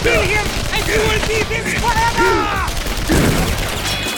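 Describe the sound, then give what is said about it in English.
Battle gunfire from Nazi troops firing with everything they have: a dense, loud clatter of shots beneath shouting voices. “The cannon wasn't far, but with Nazis firing with everything they had, it seemed like a million miles off.”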